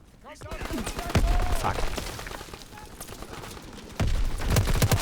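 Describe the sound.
Rapid gunfire from a weapon in a German-language shooter video game, with dense bursts of shots and sharper loud volleys near the start and the end, over busy game noise.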